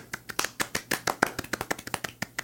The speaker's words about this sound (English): Let's claps for filler.